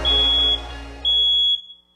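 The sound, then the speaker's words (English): A smoke detector alarm gives two long, loud, high-pitched beeps, each about half a second long, with a short gap between them and a low background rumble underneath. “When was the last time you checked your smoke detectors?”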